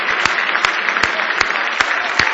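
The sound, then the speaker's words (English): Hands clap in praise as a church audience keeps an even rhythmic beat, sharp claps landing about every half second over a constant bed of dense, loud clapping. “Now give him a big hand clap of praise if you love him this morning.”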